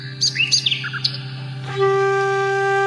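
Birds chirp in a few quick, high, sweeping calls over a steady low hum, then the chirps give way to sustained, even tones that hold to the end.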